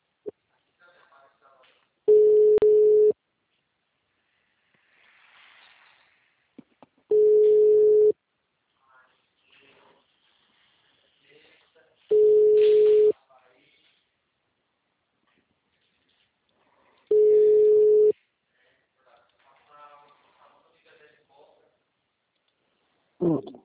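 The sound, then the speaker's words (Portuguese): Telephone busy signal of four long, steady beeps at one mid pitch, evenly spaced about five seconds apart, with faint voices murmuring in the gaps between them. “Essa linha está ocupada no momento.”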